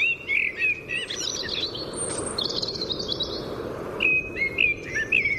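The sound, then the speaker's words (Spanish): A blackbird singing at a house window in spring, giving a few bright, warbling, high phrases separated by short pauses, over a low, steady background hiss. “este que oímos es el único sonido grabado en el día de hoy, un mirlo en la ventana de casa.”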